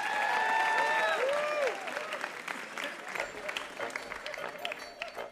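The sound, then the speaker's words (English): An audience applauds the contestants of a radio puzzle quiz show, the clapping loud and full at first, then dropping to a lower, thinner patter. “Give them a hand, our contestants.”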